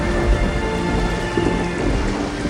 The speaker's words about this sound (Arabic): جنت العاصفة وهجمت عليها بكل قوتها وقالت لها ما رح يبقى منك أثر.